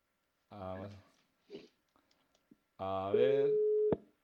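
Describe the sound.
Telephone busy signal sounding while a caller is being redialed: a short, steady, even tone lasting under a second, arriving after a few brief clicks and blips and overlapping voice-like sound.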